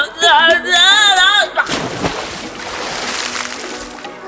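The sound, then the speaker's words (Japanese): Hot bath water sloshes and splashes as someone climbs into a tub at a public spa bathhouse, a loud wash of churning water following a brief spoken voice. “一緒にお湯に浸かりましょう。”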